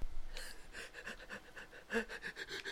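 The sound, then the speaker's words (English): Heavy, rapid panting breaths repeat in a steady run of many soft, breathy pulses, one stronger burst standing out partway through. The panting is fairly faint and is heard alone, with no talking. “You need to breathe so hard.”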